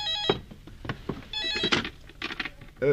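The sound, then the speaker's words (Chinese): A telephone rings in a company office, a few short, fairly faint ringing bursts scattered among clatter and other background noise. “你来接个电话。”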